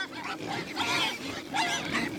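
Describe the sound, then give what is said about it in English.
Pigs grunting and snuffling on a pig farm on Brannan Island along the San Joaquin River, a steady run of rough, noisy grunts with a few louder swells. “This pig farm on Brannan Island along the San Joaquin River”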